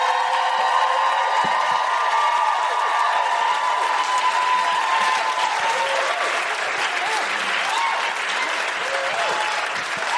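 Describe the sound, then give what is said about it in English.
A live audience in Chicago applauds and cheers a guest being introduced, with dense, loud, continuous clapping lasting about ten seconds and a few rising-and-falling whoops emerging in the latter half. “Put your hands together, make incredible Chicago woohooing noises for Karen Hawkins!”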